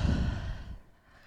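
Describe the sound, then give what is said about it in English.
A deep breath let out through an open mouth at the end of a yoga practice: one long, breathy exhale, loud at first, then thinning and fading away within about a second. “Breath in. Open your mouth and let it out.”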